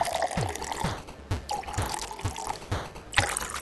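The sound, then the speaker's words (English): Water is poured into several glass cups to different levels. It makes splashy trickling and dripping in a few uneven bursts, with no voices. “See, if I fill all these glass cups up with different amounts of water,”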